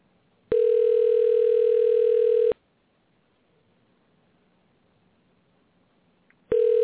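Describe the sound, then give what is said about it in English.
Phone ringback as a call rings out after dialing. A steady mid-pitched tone lasts about two seconds, then about four seconds of near silence, then the next identical tone begins. “Just to be a total prick to Rufus, I think we're going to try to call him back and see if this works this time. It says dialing.”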